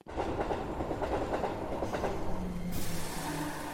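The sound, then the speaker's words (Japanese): A train on the Chuo Main Line pulls into Kobuchizawa station in Yamanashi, with a steady, loud rumble and clickety-clack of wheels on rails that turns brighter and hissier for the last second. “こちら山梨県中央本線駅小淵沢に到着しました”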